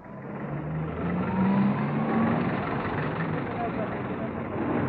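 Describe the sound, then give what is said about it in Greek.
City street traffic with cars, large buses, yellow trolleybuses that give an odd siren-like whine, small private cars and trucks, blending into a steady, dense roar of engines that stays loud throughout, with low droning engine tones. “Και ο θόρυβος που ακούτε είναι των διαφόρων αυτοκινήτων ή τα μεγάλα τα λεωφορεία ή τα κίτρινα τα τρόλεϊ που κάνουν ένα πολύ περίεργο ήχο σαν σιρήνα ή ακόμη και τα μικρότερα τα ιδιωτικά αυτοκίνητα και τα φορτηγά.”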